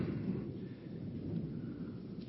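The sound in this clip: Thunder rumbles during an outdoor prayer, a low, continuous roll with no sharp cracks, steady and fairly faint throughout.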